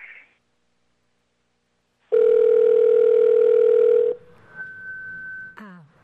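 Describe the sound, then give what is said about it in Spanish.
A telephone dial tone sounds after a dropped phone call, a loud, steady, buzzing tone lasting about two seconds. A fainter, thinner tone and a brief chirp follow it. “Se le fue la llamada. Ven, revisemos. Si de pronto le entró otra llamada en este momento, puede ser, ¿cierto? Vamos a tratar de reconectarnos con el maestro.”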